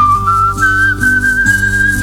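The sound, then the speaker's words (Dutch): Someone whistles in a bathroom: one clear, sustained tone that drifts slowly upward in pitch. It is loud and steady over a backdrop of lower held tones that shift a few times. “toch een beetje fluiten nu in de badkamer”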